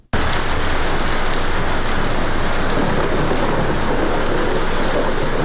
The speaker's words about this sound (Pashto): په شهر کې دا باران لا هم روان دی